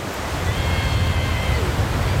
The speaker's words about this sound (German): Leichte Dünung, das Wasser flaschengrün und nicht mehr zu kalt.